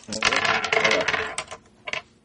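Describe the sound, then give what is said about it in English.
Three dice rolled during a tabletop board game clatter and tumble in a dense burst for about a second, then settle with a couple of lighter clicks. “So now, here, you roll those 3. I'll roll these 3.”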